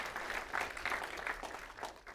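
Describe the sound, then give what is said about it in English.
A church audience applauds as people make their way to the front. The clapping is fairly faint and continuous, swelling and easing a few times before it thins out near the end. “And as they're making their way down here, you can applaud for them and make them feel encouraged and welcome.”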